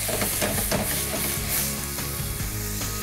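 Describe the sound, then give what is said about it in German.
White wine hits a hot pan holding pepper, allspice and juniper, deglazing it in a kitchen. A loud, steady, crackling sizzle fills the whole stretch. “So, und jetzt habe ich hier Weißwein. So, und jetzt lösche ich immer so ein bisschen ab hier.”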